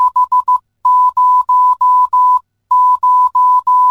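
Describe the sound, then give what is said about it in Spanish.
Morse code for the number 500 beeps out as a steady, loud high-pitched tone: a quick run of short dots, then a string of long, evenly spaced dashes, a brief pause, and more long dashes. “Número 500 en el código Morse suena así.”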